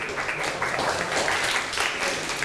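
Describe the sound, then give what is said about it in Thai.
Children in a classroom clap for a classmate, a dense, steady patter of many small hands that holds at an even level for the whole stretch without clear breaks. “ขอบคุณค่ะปรบมือให้เพื่อนหน่อย”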